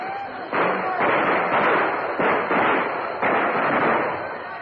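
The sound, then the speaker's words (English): A volley of rifle gunfire in a radio drama battle scene: loud, continuous crackling blasts, with several heavy new onsets that come in overlapping waves at uneven intervals. “Take aim. Fire!”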